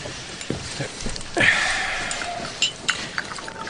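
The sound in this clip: Tea glasses and cutlery clink faintly a few times, with sharp, isolated taps spread across a quiet, soft background as tea is served at a table.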